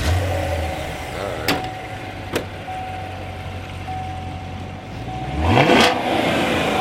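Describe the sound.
A car engine with a stock exhaust, in a car with a 7-speed manual gearbox, idles with a steady low hum and then gives one strong rev near the end, rising quickly in pitch before settling again.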